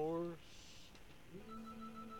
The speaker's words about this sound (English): I'm getting a phone call.